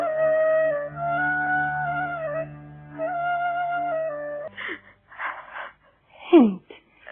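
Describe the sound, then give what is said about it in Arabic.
A woman crying in a radio drama, with long wavering wails and moans that then break into breathy, gasping sobs, faint to moderately loud. “البكاء. لا لا تبكي يا هند”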